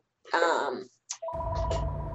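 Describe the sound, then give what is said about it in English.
A telephone rings: after a brief vocal sound and a short pause, a steady tonal ring with a buzzy, electronic edge sets in and continues to the end. “there goes my phone. It's okay.”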